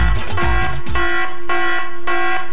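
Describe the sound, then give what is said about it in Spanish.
An alarm ringing, a loud buzzing tone rich in harmonics that sounds in several short repeated bursts with no voices. “Esto se da cuando suena la alarma. La alarma suena así.”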